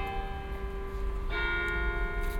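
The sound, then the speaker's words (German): Church bells ring a programmed melody modeled on hymns and folk tunes, sounding as steady sustained bell tones that shift to a new set of notes partway through, fairly loud and with no voices. “So spielen die Glocken neben dem schwingenden Läuten zu den Gottesdiensten jeden Tag um 17 Uhr für ein paar Minuten bekannte Melodien,”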